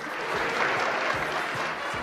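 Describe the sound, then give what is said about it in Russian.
Audience applause continuing after a stage performance, a steady, moderately faint wash of clapping with a few dull low thumps beneath it. “Все еще хлопает, слышите?”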